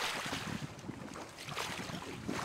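Water swishing and splashing softly as a folding kayak is paddled, a faint, continuous wash of noise with light irregular surges and no clear strokes standing out.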